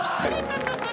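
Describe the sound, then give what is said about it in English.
A brief roar from a football crowd in packed stands at a match in Aleppo, Syria, a dense burst of many cheering, shouting voices. “The roar of this crowd isn't just about the game.”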